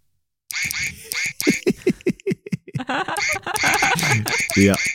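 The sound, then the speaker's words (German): Squeaky quacking from a novelty computer keyboard whose keys are all little ducks, received as a birthday gift, with many rapid, high, nasal toy quacks in irregular bursts that grow denser toward the end. “wir machen eine Keyboard, also eine Tastatur, eine Computertastatur und die besteht statt aus Buchstaben komplett aus Enten”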